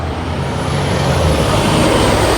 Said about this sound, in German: Kommt ein Bus.